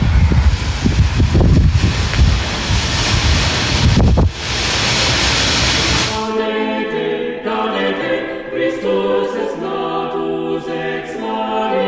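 Wind buffets a microphone outdoors on a chilly day, a loud rough rumble with gusty low bursts for about six seconds, then it stops and steady tonal sounds take over.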